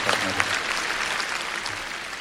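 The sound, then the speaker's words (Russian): Audience applause for a singer at an international charity festival, a steady wash of clapping that holds throughout while a voice speaks over it. “Ваши аплодисменты Диме! Дима Салимов! Браво!”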